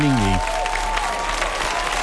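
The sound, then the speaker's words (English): Steady applause from a studio audience at an evening talk show. Dense, continuous clapping fills nearly the whole clip after a brief voiced sound at the very start. “I want to save some of that applause for my guest co-host, the Mad Dog himself, Maddie Nelson.”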